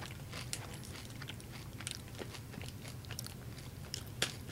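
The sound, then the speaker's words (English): Quiet bites and chewing crunches from a sweet and salty wafer snack: sharp, crisp cracks come at irregular moments over soft, continuous munching. “It's like a wafer. I'm not sure if that's a salty snack or a sweet snack. It's kind of sweet.”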